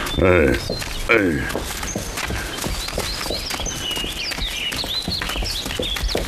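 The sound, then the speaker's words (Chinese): Horse hooves walk along a mountain path in a steady, even clip-clop of many fairly loud hoofbeats that keeps going from start to finish. “走， 牵上马，我们上山。”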